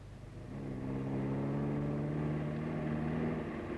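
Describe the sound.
A car is driven fast along a lonely stretch of road. Its engine drones steadily, swelling slightly at first and then holding an even, humming pitch with no voices.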